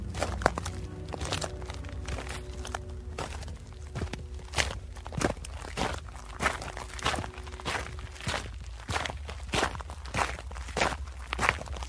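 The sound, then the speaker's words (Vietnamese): Heavy human footsteps echo behind a stone door in an underground tunnel. Many faint, thudding steps fall in a steady, even rhythm with no voices. “tiếng bước chân tuy ở xa nhưng ghé tai qua cửa là nghe rõ một một, không lầm được, đúng là tiếng chân người đi, nghe rất nặng nề, như cả ngàn cân dậm xuống vậy.”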